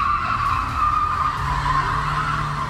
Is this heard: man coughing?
no